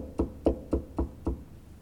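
Five evenly spaced knocks, each a short, dull, moderately loud thud, sound alone in a steady rhythm with nothing else around them.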